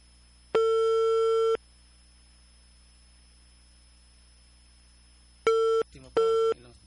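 Telephone line tones on a call to a barangay hall landline that goes unanswered: one steady beep of about a second, a long quiet gap, then several shorter beeps in quick succession.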